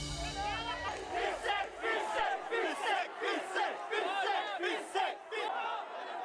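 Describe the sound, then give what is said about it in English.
Protesters gathering near Sri Lankan President Gotabaya Rajapaksa's home in a Colombo suburb shout in loud, rhythmic chanted phrases, with crowd voices rising and falling in repeated bursts. “That's the sound of protesters gathering near the home of Sri Lankan President Gotabaya Rajapaksa on Thursday.”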